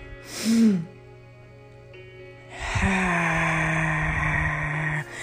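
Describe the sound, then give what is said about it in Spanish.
A deep breath in taken during a guided breathing exercise: a short, breathy gasp comes first, then a longer, sustained rush of breath that holds steady for a couple of seconds before it cuts off. “Luego, inhala profundamente mientras cuentas mentalmente hasta siete.”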